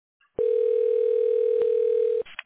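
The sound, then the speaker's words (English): A telephone dial tone: one steady, continuous tone lasting about two seconds, opening and closing with a click, followed by a couple of faint short blips. “Dialing.”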